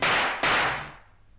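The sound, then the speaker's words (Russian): Two loud, sharp gunshots, fired by two shooters almost at the same moment, come in quick succession. Each bang has a long, fading tail, with no voices. “Он выстрелил и промахнулся. Я выстрелил почти одновременно с ним, и он рухнул на пол.”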